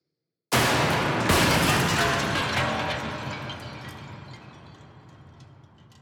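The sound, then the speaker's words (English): Sci-fi energy bolts smashing into a scout ship: a sudden loud blast, then a second heavier hit that swells into a long roaring rumble and slowly fades away. “The bolts of light close in on the scout ship, and the first shot misses, but the second and third smash into the scout ship, breaking its back and incinerating its wings.”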